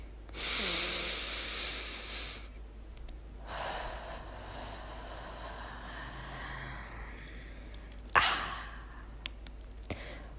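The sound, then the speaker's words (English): A slow, deep breath taken during a guided breathing moment: a soft, breathy inhale, a pause, then a longer, gentle exhale, with a few faint clicks near the end. “invite you to just take a deep, deep, loving breath with me”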